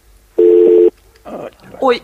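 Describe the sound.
A telephone call connecting: a single steady, loud electronic tone lasting about half a second, followed by short, quieter bursts of voice.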